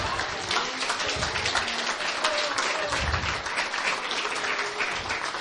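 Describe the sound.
Audience applause at a human rights report presentation in Mexico City, as dense, steady clapping holds at a moderate level throughout.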